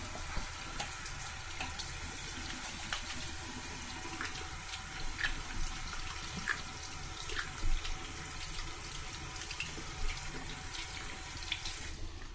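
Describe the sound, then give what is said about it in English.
Water runs from a sink tap while someone washes their hands after cleaning a cat litter box, a steady faint stream with small irregular splashes and no talking. “I usually wash the hands after I do the kitty litter thing.”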